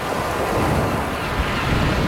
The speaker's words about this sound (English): Most of the time, La Playa sounds like this.